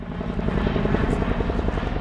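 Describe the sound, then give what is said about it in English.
Loud, low throbbing rotor beat of a Chinook twin-rotor helicopter flying over an airfield during a military parachute cargo drop exercise, a steady heavy chop with a broad rumbling wash. “that was a Chinook helicopter, a twin-rotor helicopter that just flew over the Shelton airfield”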